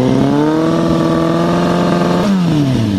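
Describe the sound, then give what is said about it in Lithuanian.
Motorcycle engine revving loudly with the silencer baffle removed from its muffler: a raw, continuous drone whose pitch climbs steadily, then shifts abruptly and drops near the end. “Taip pat nepasisekė ir vienam motociklininkui, kurio transporto priemonės duslintuve buvo išimtas triukšmo slopintuvas.”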